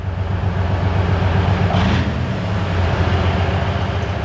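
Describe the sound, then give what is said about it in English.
An OSA anti-aircraft missile system, a large Soviet wheeled armored vehicle, drives along with a loud, steady low-pitched engine drone and a rough mechanical rumble that continues throughout. “Soldiers from the Biloterkva Air Defense Regiment are driving their anti-aircraft missile system called OSA into cover. This giant Soviet armored vehicle on wheels is a lucrative target for Russian drones.”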